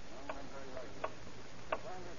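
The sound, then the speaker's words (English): A clock ticks faintly in near-silence, giving a few soft, sparse clicks. “Time, that precious element, relentlessly slipped by. Every tick of the clock bringing death closer and closer.”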